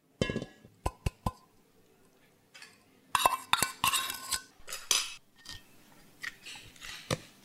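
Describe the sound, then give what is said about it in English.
Utensils clink and knock against a mixer bowl as melted butter, salt and starter dough go in. A few sharp, faint taps come first, then a denser burst of rattling clatter and scattered clinks. “And then I'm going to just put everything into the mixer bowl, including the starter dough.”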